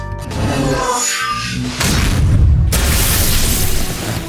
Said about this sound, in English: A burst of cosmic energy blasted against Thanos, disrupting his expanding atomic structure.